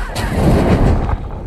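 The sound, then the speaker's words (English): A film sound effect of a magic umbrella lighting a fire: one loud, rough burst of rumbling, crackling noise that swells at once, holds for about a second, then eases off. “That's the sound of Hagrid lighting a fire with his magic umbrella in Harry Potter and the Sorcerer's Stone.”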